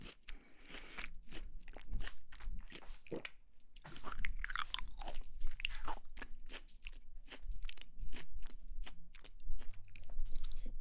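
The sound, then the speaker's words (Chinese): Crunchy chewing of peeled food, eaten in two flavours, comes through as many irregular, crisp bites and mouth crackles at low volume, with brief pauses between bursts and no talk. “好好吃啊！就要吃两个味的。”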